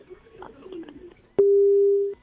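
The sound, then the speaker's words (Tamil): Telephone tone after a call is cut off: a single loud, steady electronic tone lasting under a second, following a short quiet stretch with faint background sound. “அடடா, என்னது கால் எல்லாம் cut ஆயிட்டு இருக்கு.”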